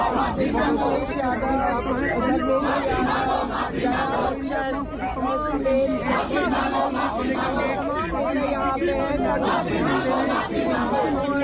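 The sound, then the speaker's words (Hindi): Protesters chant slogans outside a BJP office, a continuous loud mass of overlapping shouted voices with a rhythmic, insistent chanting pattern that never lets up. “और यहाँ BJP के दफ्तर मिले में कहाँ मिलेगा चंदा, कहाँ मिलेगा बीजेपी के दफ्तर में, इस तरीके के नारे लगाए जा रहे हैं लोग।”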